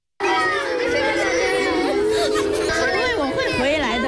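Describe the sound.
A group of children cry and sob together around their departing volunteer teacher at his last class in Nujiang, making a continuous, high, wavering wail that stays loud from start to finish.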